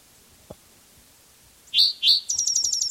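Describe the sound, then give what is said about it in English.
Birdsong comes in after a quiet stretch with one soft click: two sharp, loud high chirps, then a quick run of repeated piercing notes. “This bird has more songs.”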